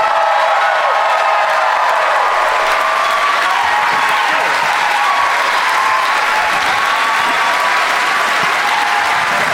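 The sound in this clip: Sustained applause and cheering from a Minneapolis comedy audience as three comedians take the stage: a thick, loud, unbroken wall of clapping with scattered whoops lasting nearly ten seconds.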